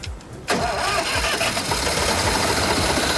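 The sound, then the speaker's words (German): A tractor engine in Bavaria, started with a screwdriver instead of the ignition key, catches abruptly after a quiet moment and then runs on as a loud, steady, rough roar. “Das ist Bayern, da wird der Traktor mit dem Schraubenzieher angeschaltet.”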